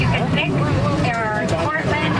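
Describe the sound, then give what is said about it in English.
Tractor engine rumbling steadily during a tractor ride into an apple orchard's U-pick area outside Moncton, a continuous drone under a speaking voice and background chatter. “tractor ride into the heart of Belleville Orchard's U-Pick Zone was full of families and friend groups this weekend”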